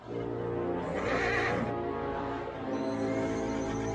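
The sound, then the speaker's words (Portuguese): A horse neighs in a dubbed film scene, a bright whinny swelling near the start over a steady, droning background. “o cavalo engoliu o transmissor”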